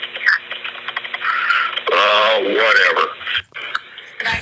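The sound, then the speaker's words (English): Fast typing on a computer keyboard by a 911 operator, a rapid patter of clicks beneath a voice on a telephone line. “She can't fucking type fast enough.”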